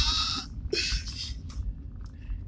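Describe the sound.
A voice imitates a sheep bleating, giving two harsh, nasal bleats close together, then fainter breathy bits over steady background noise.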